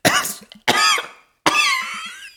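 Harsh coughing from an unwell elderly German man: three loud, rasping, voiced bursts, each trailing off, with short pauses between them.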